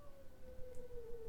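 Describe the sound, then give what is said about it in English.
A cat moans in one long, faint, drawn-out tone that slides slightly lower as it goes. It sounds on its own, with no voices over it. “sorry, there's a bit of cat moaning.”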